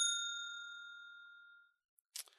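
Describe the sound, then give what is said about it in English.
A bell struck once gives a single bright ding whose ringing tone fades slowly over about a second and a half, followed by a short burst of rustling noise. “I don't know. I'm gonna hit the bell anyway.”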